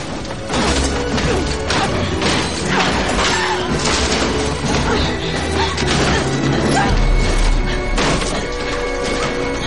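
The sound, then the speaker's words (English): Crowbar smashing jars and then sculptures on a work table: a continuous barrage of loud crashes, cracks and heavy whacks, many impacts running together over the whole stretch. “She picks up a crowbar and smashes some jars on her work table. Then she lays into her sculptures.”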